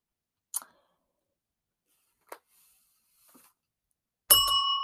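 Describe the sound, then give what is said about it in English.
A bell rings once near the end, a bright struck tone that rings on, after a few faint, brief clicks in near silence. “I keep forgetting to hide my bell. All right, I hope the bell is not bothering you guys.”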